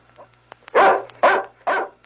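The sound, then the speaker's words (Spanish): A ranch dog barks three times, each a loud, rough bark separated by short pauses, over a faint low hum with a few soft clicks before the first bark. “¿A quién le ladra el perro?”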